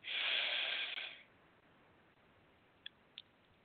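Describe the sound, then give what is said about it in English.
A deep breath drawn in during a calming relaxation exercise: one long, loud, airy rush lasting about a second, then near silence broken by two brief faint clicks. “So let's take a few deep breaths and just try not to think too much. Just breathe in, breathe out.”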